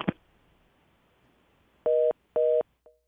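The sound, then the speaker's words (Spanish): Telephone tones after a dropped call: a short click, then two steady, identical beeps of about a quarter second each, followed by a brief, faint third blip. “Se le cayó la llamada.”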